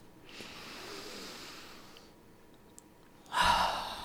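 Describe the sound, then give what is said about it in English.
A deep breath: a long, soft, airy inhale, a quiet pause, then a short, louder exhaling sigh that tails off. “In fact, right now, take a deep breath.”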